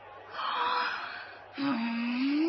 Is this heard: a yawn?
yes